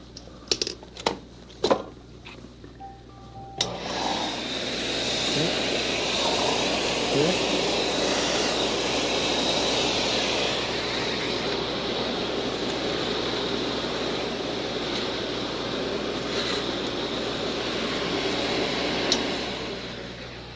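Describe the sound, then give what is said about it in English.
An upright electric sweeper (vacuum cleaner) is plugged in and switched on after a few clicks. It then runs with a loud, steady whooshing roar and hum that continues to the end. “Do you have a sweeper that looks something like this? Well, I'll plug this one in and show you how loud it can get.”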